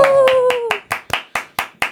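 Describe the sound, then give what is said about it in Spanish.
Sharp, evenly spaced claps ring out in a brisk steady rhythm. Over the first few claps a voice gives a whooping cheer that slides down in pitch, and then the hands carry on alone. “¡Woo! Un aplauso, mi macho.”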